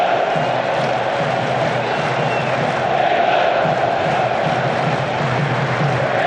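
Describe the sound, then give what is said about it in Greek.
Football stadium crowd of 65,000 spectators at Gillette Stadium in Massachusetts, roaring as play builds: a dense, loud, unbroken wall of massed voices holding steady throughout. “Κόβε την μπάλα και πιο μακριά τώρα από τον Οπόκου. Και ξεσηκώνεται και το κοινό.”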